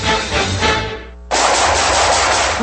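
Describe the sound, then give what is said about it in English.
Rapid automatic gunfire, loud and dense, comes in two sustained stretches separated by a brief pause near the middle, with no voices. “Nice shooting.”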